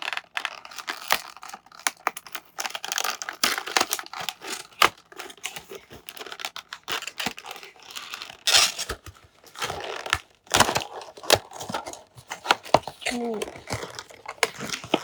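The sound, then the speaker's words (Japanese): Toy packaging being opened by hand, with many short, irregular crinkles, rustles and clicks at a moderate level throughout. “早速、おもちゃの方を開封していきたいと思います。”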